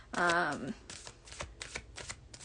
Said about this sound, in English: And let's see if we have any cards here.